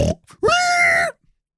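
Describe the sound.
A human voice imitates a pig with a loud, nasal oink-like grunt held for about half a second, after a short breathy burst of sound.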